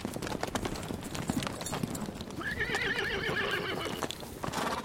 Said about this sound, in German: Ich höre Pferde. Sie kommen zurück.